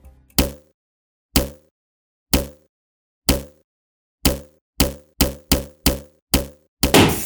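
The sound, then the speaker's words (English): A bouncing ball used in a music lesson on steady beat: hollow thuds fall evenly at first, about one per second, then come quicker and closer together before ending in a brief hissing rush as the ball goes flat. “Yikes, it looks like the ball hit a spiky stick while bouncing, which caused it to go flat.”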